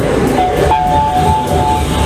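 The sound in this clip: A metro train arriving at a station, as a sound effect: a steady, loud rumble of wheels on rails with a thin, high squeal of brakes sliding through the middle.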